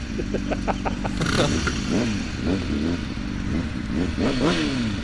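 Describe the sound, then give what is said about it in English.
Motorcycle engines rev between races, the pitch climbing and dropping in several quick surges over a loud, steady rumble. “Do they have to rev like that?”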